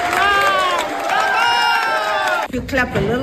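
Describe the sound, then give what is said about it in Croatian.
Colleagues cheer and applaud a prize winner: a loud, dense wash of whoops, shouting voices and clapping that dips briefly near the end and then surges again. “Budete li i dalje pljeskali, mogla bih podijeliti ovu nagradu s Trumpom.”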